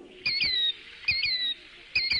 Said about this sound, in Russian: Ах, вот кто это! Незнакомая мне птица. Здравствуй, птица! Я тебя увидала. Скажи, это ты сейчас кричала?